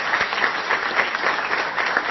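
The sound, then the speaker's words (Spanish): An audience applauds two musicians who composed the score for a stage play. The clapping is dense and steady, holding at an even level throughout. “Un aplauso para ellos, que se quiere.”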